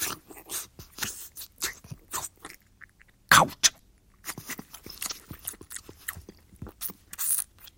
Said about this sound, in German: Der Juwelier entreißt ihr den Ring, steckt ihn sich in den Mund, lutscht.